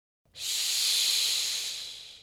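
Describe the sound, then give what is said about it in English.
A snake hisses in one long, breathy, high-pitched hiss that lasts about two seconds. It swells quickly, then slowly fades, with no other sound. “Oh, who's there? What's this? Is it a snake? Yes, it is. It's a snake.”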